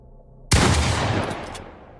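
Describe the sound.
A single loud shotgun blast bursts out suddenly, then its harsh tail decays over roughly a second.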